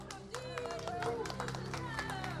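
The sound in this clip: Applause from a church audience cheering on children gathered around them, a steady patter of clapping mixed with voices and some tonal background sound throughout.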